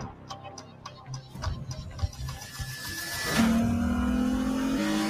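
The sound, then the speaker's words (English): A Lexus RC F sports car is heard as regular ticking clicks give way to engine sound, which swells after about three seconds into a steady, louder drone with a sustained tone. “The Lexus RCF. Experience performance in every detail.”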